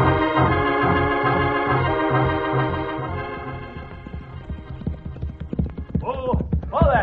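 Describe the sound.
Horses' hooves clip-clop as riders set off toward a canyon in a Western radio drama, a steady rhythmic beat of hoofbeats with a voice briefly heard near the end.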